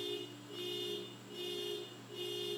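A car alarm blares next door after the car was struck, a faint electronic tone repeating in steady on-off pulses over a low constant hum, with no voices.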